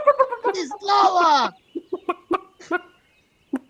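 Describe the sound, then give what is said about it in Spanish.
Chickens cluck in short, sharp, repeated bursts with uneven gaps, some louder and some fainter. Human voices and exclamations mix in with the clucking. “Hay pollos también por aquí.”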